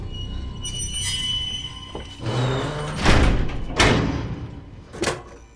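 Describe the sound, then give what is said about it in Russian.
A door is pulled shut in a film scene, giving a few dull thuds and knocks over a steady rumbling background, with no speech. “Она вышла, закрыла дверь и выключила свет.”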